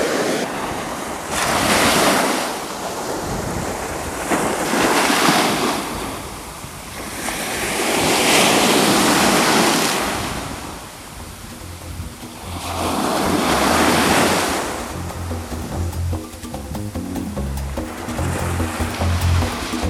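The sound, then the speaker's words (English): Ocean surf rolls in steady surges, each wave swelling into a broad wash and then receding, repeating every few seconds against a constant hiss of wind. “I'm probably going to enjoy hearing the sound of the surf. It looks like it's going to be very hot in Tunica later this week when I'm there, so let's enjoy a few more moments of the surf.”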